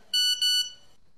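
A message notification tone sounds on a phone: two short, bright, high-pitched beeps, one right after the other, clear and fairly loud, with nothing else around them.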